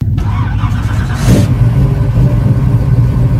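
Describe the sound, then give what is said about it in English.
A 1968 Pontiac Firebird engine starts up in a shopping center parking lot: loud, low engine noise with a short burst as it fires, then a steady, throaty rumble. “That's the sound of Brian Gerstel's bright red 1968 Pontiac Firebird starting up here at a shopping center parking lot in Burtonsville”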